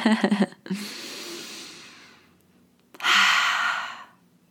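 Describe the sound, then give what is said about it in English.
Deep breaths taken slowly during a guided breathing exercise: a long, airy exhale that gradually fades, a pause, then a second louder, fuller breath that ends abruptly. “Let's take some deep breaths together.”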